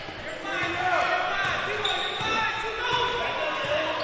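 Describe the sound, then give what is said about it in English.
Basketball dribbled on the court during a game, steady bounces buried in dense, continuous crowd noise while voices talk throughout. “And the Longhorns are content to dribble the ball out top.”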